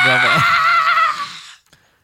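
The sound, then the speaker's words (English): A woman screams, high and piercing, holding loud and steady for about a second and a half before cutting off abruptly into near silence. “Did you hear how quick that scream sounded? It was so fast that she ran out of here.”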